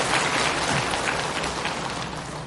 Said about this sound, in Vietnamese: Chúng ta hãy dành cho hai nghệ sĩ chúng ta một tràng vỗ tay.